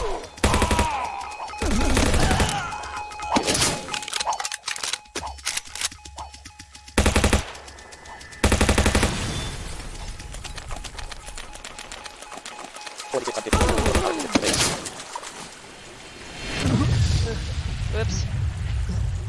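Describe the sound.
Machine gun fire in a video game comes as several loud, rapid volleys separated by pauses, with a voice speaking in places.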